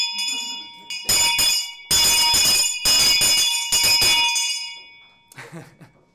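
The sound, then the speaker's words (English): An old school bell rings in a series of loud, bright clanging bursts with a sustained metallic shimmer, then gives a quieter rattle at the end. “The old school bell that my Gran had used to call my mum and her sister down for dinner when they were children.”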